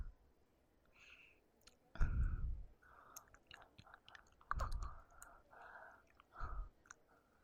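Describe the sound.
Chewing food with a few loud, crunchy bites standing out among quieter, wet mouth and clicking sounds, the bites coming at irregular intervals with no talk over them.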